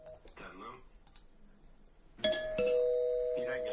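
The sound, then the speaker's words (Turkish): A doorbell rings with a bright two-tone chime that sustains to the end, following a short stretch of talk. “Ay zil çalıyor, bir dakika dur.”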